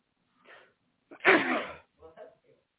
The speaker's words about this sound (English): that sneeze has nothing to do with Christmas or my message, nothing.